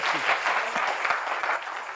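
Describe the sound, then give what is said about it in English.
A church audience claps in praise during a worship service, a dense and steady burst of many hands that keeps going without pause for about two seconds. “Come on, give God a hand clap of praise.”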